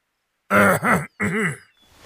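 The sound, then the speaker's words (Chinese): A voice imitates an old man clearing his throat: a rough, gravelly grunt in two linked bursts, a brief break, then a third that trails off softly. “愚公清了清嗓子”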